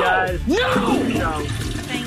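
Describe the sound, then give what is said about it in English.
A toilet flush sound effect: a watery rushing swirl lasting a couple of seconds, with a brief swooping tone that rises and falls near the start. “We got to flush Tom down.”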